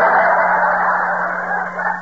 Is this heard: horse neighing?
no

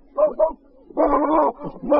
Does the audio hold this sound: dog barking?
yes

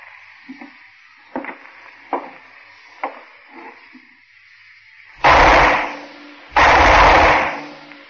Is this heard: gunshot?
yes

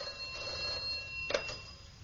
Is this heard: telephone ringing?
yes

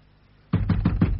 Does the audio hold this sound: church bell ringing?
no

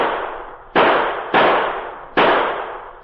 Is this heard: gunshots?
yes

